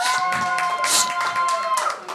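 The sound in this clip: Applause and cheering from part of a comedy show's audience, a vigorous patter of clapping mixed with whooping voices, uneven bursts rising and falling over a couple of seconds.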